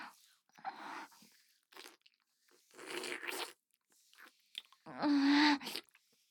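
Wet chewing and slurping of a slimy, nameko-like mushroom soup, heard as a few separate bursts of sticky mouth sounds with brief silences between, the last burst the loudest.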